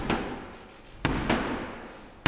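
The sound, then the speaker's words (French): A door slams in the face of the Queen's messenger at the ceremonial State Opening of Parliament in London: heavy, sharp thuds, four impacts spaced unevenly over a low, steady rumble. “Une porte claquée au visage du messager de la reine.”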